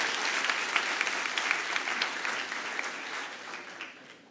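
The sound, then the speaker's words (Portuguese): A church audience applauding during a service: sustained, dense clapping that holds at an even level throughout, with no voices standing out above it. “Pode aplaudir a Jesus.”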